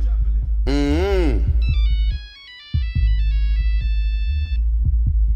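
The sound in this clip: Mobile phone ringtone within a rap track: an electronic melody of stepped, beeping tones plays over a heavy bass beat, after a brief sliding tonal sound near the start.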